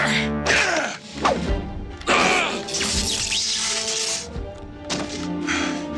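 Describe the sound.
Heavy blows and crashes from a fight on a spaceship bridge, with a body thrown into a console: several sharp thwacks and smashing impacts land at irregular intervals over a sustained tonal music bed.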